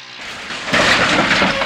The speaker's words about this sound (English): One of the ATV riders, wearing a green helmet, drives his three-wheeler off the ridge and crashes.